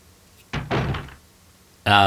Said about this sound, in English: So can I get through this door? It's locked.